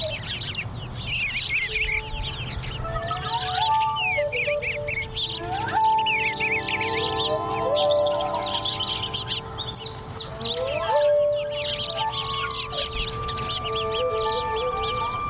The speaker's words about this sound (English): This is from the Cornell Ornithology Lab, all about birds. How to listen to a bird song.